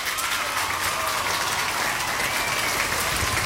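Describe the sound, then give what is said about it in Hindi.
Applause greets correct quiz answers as a dense, even patter of clapping that runs steadily throughout, moderately loud and with no voices. “आप सभी ने यहाँ पे सही जवाब दिया तो आपके लिए बजेंगी तालियां”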